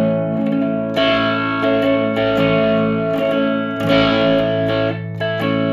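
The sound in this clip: Electric guitar strummed through a reverb pedal, with the clean and affected signals blended. A few chords ring out in a wide, smeared wash that lingers between strums.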